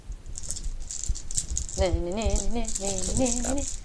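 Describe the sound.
Dice rattling during a tabletop game, two sets of helper dice shaken together in a steady, busy clatter that runs throughout, with voices joining over the second half.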